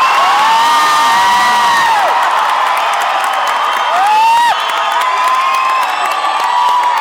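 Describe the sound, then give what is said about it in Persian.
A crowd of Esteghlal football fans cheers loudly and without a break. High whistling whoops swoop up and down in pitch above a dense roar of voices. “اول استقلالیه دست خوشی بزن”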